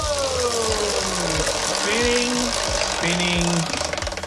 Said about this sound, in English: do you want a big spin or a little spin here on the wheel? Big spin. All right, big spin to choose the category here. We go!